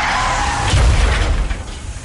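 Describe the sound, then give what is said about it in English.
A dramatized car crash sound effect: a heavy, low boom hits about a third of the way in, bursting through a dense, noisy wash, then fades into a rumbling tail. “But then comes the crash.”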